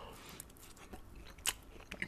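Quiet chewing and biting on a satay skewer with peanut sauce, the meat marinated in coconut milk, with soft mouth sounds and a few crisper bites standing out.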